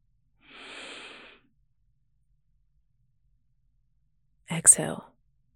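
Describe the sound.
A soft, airy breath drawn in during a guided relaxation exercise of deep inhales and exhales. It is a quiet, smooth rush lasting under a second, followed after a long silence by a brief, sharper burst.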